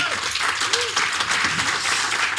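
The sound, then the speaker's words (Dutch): Dense, steady audience applause welcomes a guest, holding at an even level from start to finish, with a few faint vocal sounds mixed into the clapping. “Applaus voor Wouter Tavecchio.”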